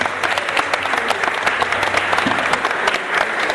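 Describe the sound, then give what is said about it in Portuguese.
Audience applause at a samba performance: dense, steady clapping from many hands at an even loudness throughout. “Salve de palmas”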